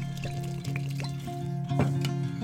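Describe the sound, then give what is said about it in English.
About three ounces of bourbon poured into a drink, a brief, fairly quiet trickling stream of liquid that swells slightly louder near the end. “Now we're going to add about 3 ounces of this good bourbon.”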